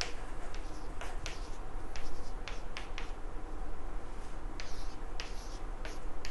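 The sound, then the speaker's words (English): Writing on a board during a physics lecture: short scratchy strokes and sharp taps come in irregular bursts over a steady faint hiss, with no talking. “So if I write it in the same basis,”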